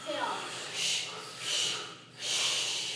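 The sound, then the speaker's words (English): Forceful breathing in and out through the nose during a breathing exercise: a steady series of hissing, rhythmic breaths at an even pace, fairly soft overall. “Now switch on your inhale, exhale three times. Inhale. And switch.”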